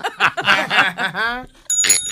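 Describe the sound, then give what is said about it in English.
A bell rings out in a short, bright, metallic burst right after people finish talking. “That was your bell that went off.”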